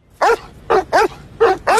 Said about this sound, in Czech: Promiňte, pane kapitáne, ty psi jsou divoký.